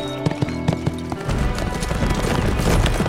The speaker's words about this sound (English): A dozen mountain men with over 600 years of survival and fighting experience between them were riding hard just south of Chalice.